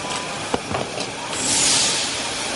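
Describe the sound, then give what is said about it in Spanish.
A train at a station platform fills the air with broad, steady rumbling noise, a couple of brief sharp clanks early on, then a louder hiss that swells and lingers. “Sherlock y John suben al tren y Delgado y Alcántara los saludan una última vez. Luego, ambos caminan juntos por el andén.”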